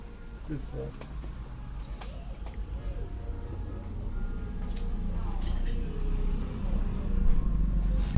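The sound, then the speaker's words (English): Street traffic on a crowded street, with buzzing motorcycles coming through and a bus nearby: a steady low rumble and drone that slowly grows louder, with people talking throughout. “A lot of motorcycles coming through, and a lot of people here. A bus just unloaded here.”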